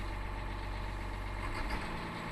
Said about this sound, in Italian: il motore è sufficientemente caldo. E adesso marcia avanti, accendiamo la fresa togliamo il freno a mano